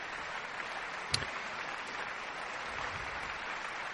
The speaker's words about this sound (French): Le grand homme remonte sur son podium, acclamé par le public et par les musiciens.